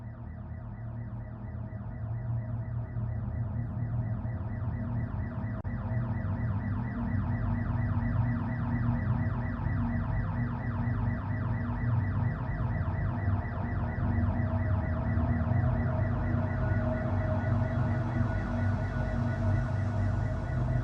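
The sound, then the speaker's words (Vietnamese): An alarm bell, pressed during a deadly robbery, rings out as a loud, rapidly pulsing electronic tone that holds steady and unbroken for the whole clip, with no voices. “có lẽ cô gái tội nghiệp kia đã kịp bấm chuông báo động”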